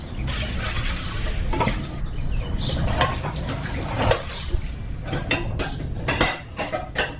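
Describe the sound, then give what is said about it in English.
Clattering of utensils being washed outside a one-bedroom house in a Mombasa slum at seven in the morning: steady clinks and scrapes of dishes and cutlery, with a few louder knocks standing out. “It's 7 in the morning. I find her washing utensils outside her one-bedroom house.”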